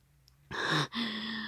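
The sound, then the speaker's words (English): A woman gasps in an intimate erotic scene. A sharp, breathy intake of air is followed by a short voiced sound, heard alone. “And I gasp.”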